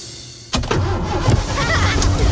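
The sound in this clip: A car engine cranks and catches about half a second in, then settles into a loud, rough rumbling run with uneven surges.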